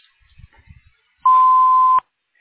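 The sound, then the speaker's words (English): A single steady, pure, high-pitched beep from the front desk voicemail of an imaging clinic, signalling the start of the message. It is loud and lasts under a second before stopping cleanly. “Please leave a message after the tone and we will return your phone call as soon as possible.”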